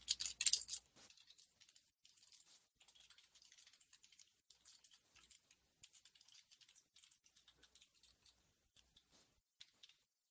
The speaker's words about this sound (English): Here, I'll write this one too.